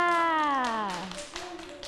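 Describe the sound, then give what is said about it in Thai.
Young children in a class clap for themselves, a short, scattered patter of light claps that follows a woman talking. “เด็กๆปรบมือให้ตัวเองด้วยค่ะ”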